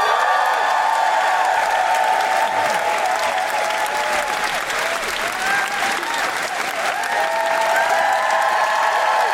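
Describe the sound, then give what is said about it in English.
A live comedy audience applauds and cheers a comedian, a steady roar of clapping threaded with whoops and high shouts that stays loud from start to finish. “Put your hands together and make extraordinary woo-hooing noises for the wonderful Rosie Jones!”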